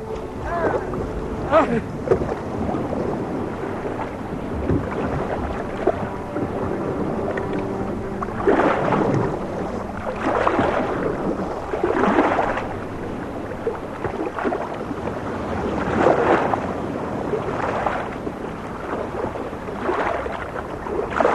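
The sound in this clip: Oars pull a rowing boat at sea with regular swishing strokes that grow louder and more rhythmic in the second half, over a steady wash of wind and water, while people talk.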